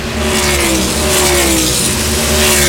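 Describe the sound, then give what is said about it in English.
An RFK Racing Ford Mustang race car comes onto pit road during a race in San Diego, a loud, continuous engine roar with steady droning tones and no pause. “More pit stops happening on pit road. Steve Post. Chris Buescher brings his RFK Racing Ford Mustang into the attention of the crew around to the left side of this one.”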